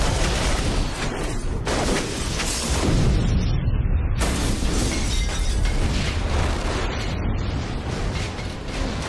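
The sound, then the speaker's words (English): A bomb explodes under a limousine and the car erupts in a fireball. A loud blast gives way to a dense, sustained roar and rumble with crackling bursts that fill the whole stretch. “the skateboard catches up and the bomb explodes under the car.”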